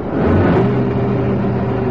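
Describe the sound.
A car accelerating hard during a chase makes a loud, continuous, low engine roar with a rumbling harmonic tone. It holds steady and powerful for about two seconds, with no voices.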